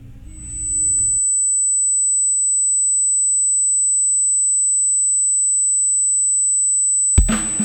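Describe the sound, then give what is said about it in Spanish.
A steady, high-pitched continuous beep tone fills dead air on a silent radio station, holding one unchanging pitch for several seconds, with brief other sounds at the very start and end. “con tal de que la emisora no quede en silencio, no quede con este ruido molestoso, este ruido que es fastidioso, escúchenlo.”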